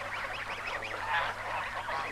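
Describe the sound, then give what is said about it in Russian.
Honking, quacking calls from a large flock of big white ducks swimming toward the shore, with overlapping wavering cries forming a continuous, fairly faint chorus and no voices. “Белые крупные утки большой стаи подплывают к берегу.”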